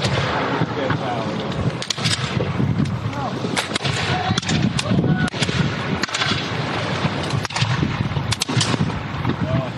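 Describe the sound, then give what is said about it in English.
Militia gunfire spread along a beach, with British vessels offshore: sharp cracks of shots at irregular intervals rise above a dense, noisy background, and voices talk underneath. “The militia have picked up their fire now. They're spread out all along the beach.”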